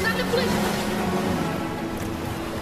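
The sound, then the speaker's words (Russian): Waves crash hard against the rock walls of a grotto as a small boat enters, a dense, continuous roar of churning water that stays loud throughout. “Волны яростно ударяются о стены грота. Лодка заходит в грот.”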